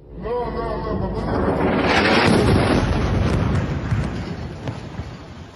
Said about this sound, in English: This video from Sunday showed one of these 63 bombings close up.